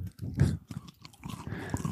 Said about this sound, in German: Oh, die cruncht so schön. Wonach schmeckt sie denn, ne? Außer Crunch. Oh, zarter Karamell.